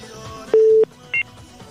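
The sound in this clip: Electronic telephone tones as a call connects on a radio call-in show: a longer, steady low beep, then a brief higher double-pitched beep, both clear over quiet background hiss.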